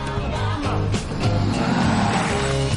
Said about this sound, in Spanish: Un autobús pasa a su lado y le hace caer. El autobús va lleno de turistas.